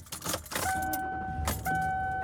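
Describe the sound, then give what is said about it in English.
A car being driven produces steady road and engine noise, with brief rattles early on and a continuous tonal whine that enters about a third of the way in and holds to the end. “I am driving home.”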